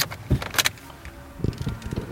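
Car driving on the way to a village, a low engine rumble inside the vehicle broken by a few soft clicks and bumps, with no voices.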